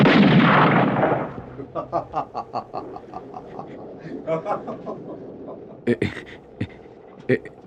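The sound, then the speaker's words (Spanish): Gunfire volley aimed at a hut: a loud opening blast fades, then voices and rhythmic pulses, and a few sharp separate shots crack near the end. “Vamos a disparar nuevamente contra la barraca.”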